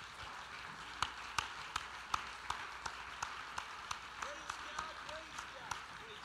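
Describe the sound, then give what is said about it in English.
Church audience clapping hands together in a steady, even beat. The claps are faint and regularly spaced, many in a row, with a voice audible over them. “Let's clap our hands once again unto the Lord”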